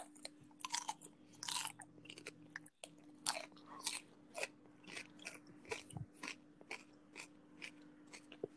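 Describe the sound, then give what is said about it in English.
Crunching bites and chewing of a hot pepper: many sharp, crisp crunches in an irregular rhythm, with a short pause partway through before the chewing resumes. “All right, eat the pepper.”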